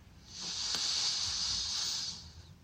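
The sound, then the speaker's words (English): One long, airy breath in a meditation session, a soft, breathy hiss that swells in, holds for about a second and a half, then tapers off, heard alone against near silence. “Big breath in.”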